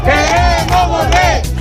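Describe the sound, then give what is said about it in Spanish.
Protesters crowd the streets of Ceuta at night, shouting together in a loud, continuous chant that swells and dips in a steady rhythm. “Este es el sonido de las protestas de esta noche.”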